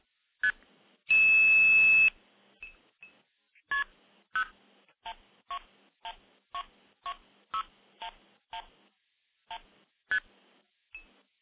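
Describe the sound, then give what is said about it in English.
Telephone dialing tones dialing into a telephone switch in Minnesota, multi-frequency signaling: one long, loud, harsh burst of tone, then many short, clear beeps in a steady, even rhythm. “So let me initiate the stack by dialing into a switch up in Minnesota. We'll do that right now.”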